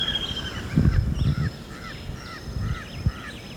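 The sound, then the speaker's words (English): Jabbering crow calling: a loose series of short, harsh, nasal calls repeated at an uneven pace, with thin, high whistling birdsong running above and a low rumbling background. “It's jabbering crow. One's taking off across open, two take off across open.”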